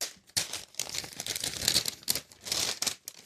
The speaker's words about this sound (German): Und da steht drauf dein neues Konferenznamensschild. Richtig, das darfst du jetzt auspacken.